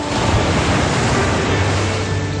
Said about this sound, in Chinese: 夜幕降临了，海上的风浪也渐渐地小了